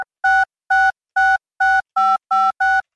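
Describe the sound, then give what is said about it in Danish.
Telephone ringback tone while calling a restaurant to order pizzas: seven short electronic beeps in an even, steady rhythm, loud and clear, with silence between them and no voices. “Ja, bare ring ned til restauranten.”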